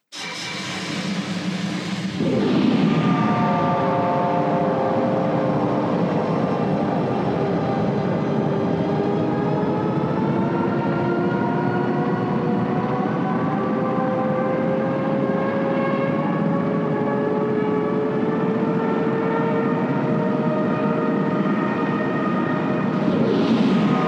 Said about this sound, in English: Padme's Star Cruiser blast off and fly